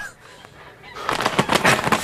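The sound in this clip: Geese being fattened for market honk in a burst of loud, harsh, nasal calls: a quiet stretch, then a rapid run of many overlapping honks filling the second half.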